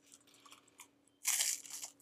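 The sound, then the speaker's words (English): Saltine crackers crinkle faintly as the pack is opened, followed by a sudden loud, sustained crunch as a cracker is bitten, with no talking. “Actually, let me open some of my saltine crackers that I got right here. And I'm going to give you guys some ASMR real quick.”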